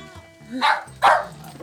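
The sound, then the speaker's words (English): Two short, sharp yips from a puppy chewing on a cord and tugging at a bag, spaced about half a second apart over a faint low voice. “Hey, puppy. Nope, no, don't chew on the cord.”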